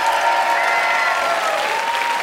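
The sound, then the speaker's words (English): Audience applause fills the room after a performance at a live comedy event, a dense, steady wash of clapping that holds at an even, fairly loud level for the whole stretch without a break. “let's hear it for Abandonment.”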